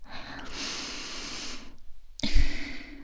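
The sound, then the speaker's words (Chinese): A deep, forceful inhale through the nose, a mother's demonstration sniff: a long, rough hissing draw lasting about a second, then a short silence and another noisy breath burst. “像妈妈这样用力的深呼吸”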